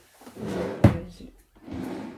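A drawer is pulled open: a soft sliding rumble, then a single sharp knock, and after a brief lull another stretch of sliding noise.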